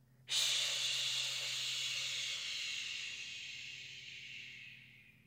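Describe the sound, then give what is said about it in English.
A long, slow breath from a guided breathing exercise, in through the nose and out through the mouth, heard as one steady, airy hiss that holds for several seconds and then gradually thins out, with no talk over it. “So we'll breathe in through our nose and then out our mouth.”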